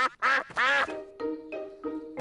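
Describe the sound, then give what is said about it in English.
Ducks quack on a pond in five nasal quacks. Two loud, bright calls come first, then three softer ones in quick succession, with no talk. “The ducks are swimming in their pond. They are very happy.”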